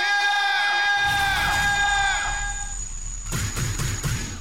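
A crowd cheers and whoops: sustained high-pitched whooping cries come first, then a louder, rougher burst of crowd cheering near the end.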